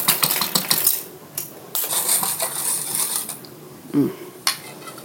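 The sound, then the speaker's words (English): Spoon stirring sugar into water in a glass, producing a busy run of quick metallic clinks and scraping rattles against the glass, uneven in loudness, with a few sharper knocks standing out. “Stirring to make sure that all of the sugar is dissolved, because otherwise it won't be fair to add more if it's not a true test.”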